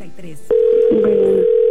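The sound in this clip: Ringback tone of an unanswered phone call: a brief voice, then a loud, steady single-pitched tone that runs unbroken to the end, with a voice briefly sounding over it.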